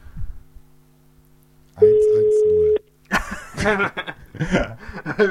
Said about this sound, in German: So, wir rufen jetzt, wir rufen jetzt mal jemanden an.